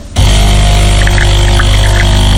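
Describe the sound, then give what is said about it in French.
A coffee machine starts up abruptly and runs with a loud, steady motor hum and buzzing tonal drone, with a few faint higher blips partway through. “La machine à café. C'est une machine à café.”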